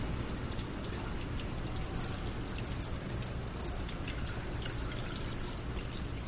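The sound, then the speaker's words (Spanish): Continuous running water while a prisoner scrubs and rinses food trays, a steady, dense splashing wash that holds even in level for the whole stretch, with no voices over it. “Friega el resto de escurridores de comida. Enjuaga con agua.”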